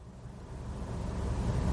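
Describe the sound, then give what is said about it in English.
Faint low rumble of a Mini Cooper C's small three-cylinder engine starting, a steady thrum that swells slightly louder over under two seconds. “Reaching for the engine switch in the middle of the center console, turn it to the right, and the little three-cylinder engine will thrum into life.”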